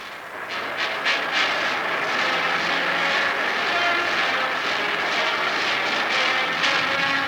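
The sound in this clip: A propeller airplane's engine drones loud and steady as the plane circles over an airfield to land, a continuous sustained roar with no clear break.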